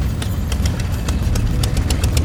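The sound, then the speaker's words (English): Motorcycle engines approaching, heard as a loud, steady low rumble with an irregular ticking clatter running over it throughout. “Do you hear that? It sounds like motorcycles.”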